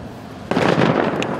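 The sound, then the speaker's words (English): A controlled demining blast in a Ukrainian city near the front line hits with a sudden, loud burst, then a heavy, deep rumble that rolls on for about a second with no talk. “We are told this is from demining, a controlled blast, yet here everything is fluid.”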